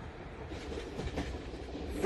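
Faint, steady rumble of a train pulling into a station, a low continuous rolling of carriages with soft hiss and no distinct wheel clatter.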